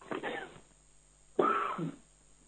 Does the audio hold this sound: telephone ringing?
no